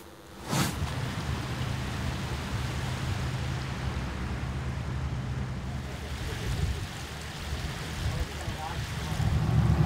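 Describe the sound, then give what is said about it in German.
A boat leaving the Elbe-Seitenkanal onto the Elbe river runs with a steady low engine drone under continuous wind and water wash, with a sharp knock near the start and the rumble swelling toward the end. “Wir verlassen jetzt den Elbe-Seitenkanal und fahren direkt auf die Elbe.”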